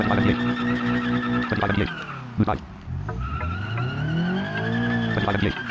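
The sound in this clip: Tires squeal as a car spins out, a loud wavering whine with the engine's tone sliding down and back up, broken by a few sharp bursts midway before the squeal resumes.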